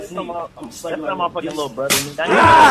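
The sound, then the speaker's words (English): A loud, sharp slap rings out from a video being played, a single bright crack heard while people talk over it. “Why is the slap just like in the movies, though? Bro, that slap's so loud. It's loud.”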